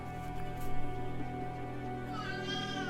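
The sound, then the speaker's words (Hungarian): A cat meows in a video game, a short wavering call near the end that rises above steady, sustained background music tones. “Jaj, a cica nyávog. Vajon mi baja van?”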